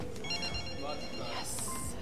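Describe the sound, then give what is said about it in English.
A phone rings with an incoming call, a faint trilling ring that runs steadily under voices. “Grace looks at her phone. Incoming call.”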